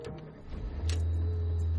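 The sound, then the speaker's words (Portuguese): A ride-hailing car arrives, and a low, steady engine hum sets in partway through and holds to the end under faint background noise. “O carro de aplicativo acabou de chegar. Eita, é o seu carro.”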